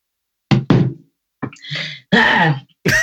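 Coughing and throat clearing from someone choking up: two quick, sharp coughs, then a rasping throat clear and a longer harsh cough, with short pauses between and no talk.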